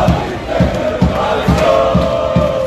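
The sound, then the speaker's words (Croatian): Croatian football fans cheer at the World Cup in Philadelphia, with a massed crowd chanting over a steady, regularly beating drum that thumps roughly twice a second. “Ono što je uvijek isto, mnogobrojni navijači gdje god naša reprezentacija igrala.”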